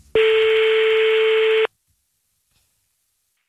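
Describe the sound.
A telephone call rings out on the line: one steady, buzzing ring tone of about a second and a half, then silence, and a brief sound at the very end.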